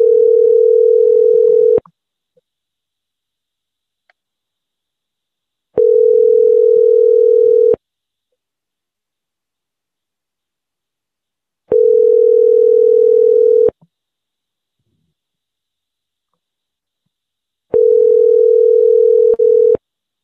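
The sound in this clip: A telephone tone sounds in four steady, mid-pitched bursts of about two seconds each. Silent gaps of roughly four seconds separate the bursts, and there is no talk.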